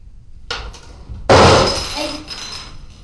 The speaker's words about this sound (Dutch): Wat is er gevallen? Oh, die dozen. Die pak ik zo wel op.